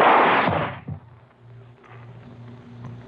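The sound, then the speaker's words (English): A gunshot in a tense confrontation cracks out as one loud, sharp blast at the start and decays quickly, with a fainter bang about a second later and then a low, quiet hum. “Why did you waste another bullet?”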